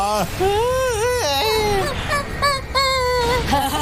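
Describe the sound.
Loud wailing crying from voices, tonal sobbing phrases that waver up and down in pitch, breaking into several short bursts with brief catches between them.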